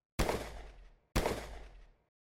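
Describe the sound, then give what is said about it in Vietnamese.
A burst of gunfire from heavily armed men outside a boat cabin: two loud, booming shots, each with a sharp attack and a deep tail fading over about a second, with no voices. “Khi đám tù nhân cực kỳ hoảng sợ, bên ngoài chợt có kẻ nổ súng.”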